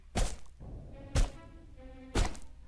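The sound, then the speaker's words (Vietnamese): A stone smashed down repeatedly on a head, heard as three heavy, dull thuds at a steady pace about a second apart, with quieter sound between the blows. “Mỗi một tiếng chết vang lên là một lần hòn đá ở trên tay tôi đập xuống.”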